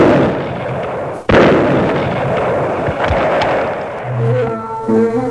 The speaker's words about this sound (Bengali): নিজের বোমাতে নিজেই উড়ে গেল ভবদোষ